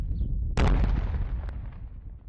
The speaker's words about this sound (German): Der IS hat ein Nachbargebäude vermint. Im Rahmen der Übung wird das Ganze gesprengt.